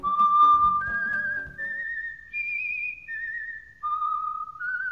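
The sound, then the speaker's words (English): A person whistles a tune as the Whistler's call, seven clear, held notes that climb step by step and then fall back, with low accompaniment heard only during the opening notes. “That's the Whistler's call, and he knows it all.”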